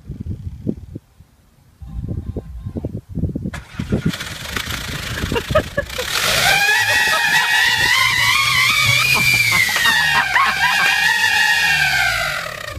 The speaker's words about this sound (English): What happens if you were to take about 20 of them and jam them into the exhaust pipe of an automobile and then start the car? Fun? Yeah, it's fun. It sounds like this.